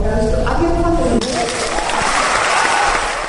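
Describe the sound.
Loud, sustained applause as the overall winner of the 2013 SAMRO Hubert van der Spuy National Music Competition, a cellist, is announced, with dense clapping throughout and voices mixed in.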